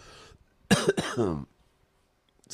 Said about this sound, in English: My lungs, I just keep coughing and